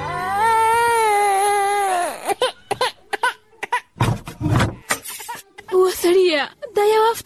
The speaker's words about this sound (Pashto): ماشوم خو هم ژاړي